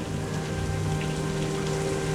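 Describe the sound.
Steady rain falling, a dense, even hiss of drops striking surfaces that continues unbroken and fairly loud throughout, with no voices.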